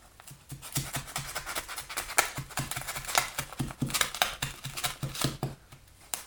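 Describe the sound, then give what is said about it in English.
Fiberglass insulation being torn apart by hand gives a dry, crackling rustle of many quick fibrous rips and snaps, steady and fairly faint throughout. “Got a portion of our insulation. Oh man, this stuff tears a lot easier than I thought.”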